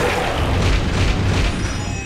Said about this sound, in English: Select an action for Amnostica. Attack. Choose a move. Petal Storm.